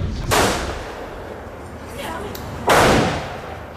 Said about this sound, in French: Alors vous vous faites du tir au revolver?